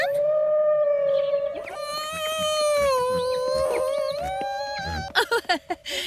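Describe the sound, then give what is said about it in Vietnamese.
Whale song: a long, sustained moaning tone with strong harmonics that wavers slightly in pitch, joined by higher swooping calls and ending in a few short pulsed bursts. “Đó là tiếng cá voi hát đấy”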